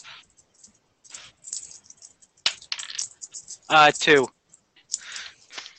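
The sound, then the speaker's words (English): A six-sided die clatters with sharp clicks and a brief rattle during a tabletop role-playing game, while people talk around it. “You should roll your d6 to see what your crit thing was.”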